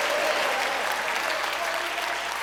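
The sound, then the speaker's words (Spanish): A church audience applauds in a steady, dense wash of clapping that holds an even level throughout, with no single claps standing out. “Denle un aplauso al Rey de Reyes.”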